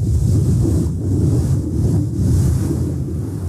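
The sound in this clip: Sea waves breaking on a sandy shore make a steady, loud rushing wash with gentle rolling swells and no distinct pauses, with no voices.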